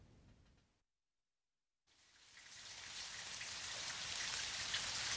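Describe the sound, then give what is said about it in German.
Rain falls as a dense, even hiss that starts after a short silence and slowly builds to a steady, full downpour. “Was stehst du denn da im Regen rum?”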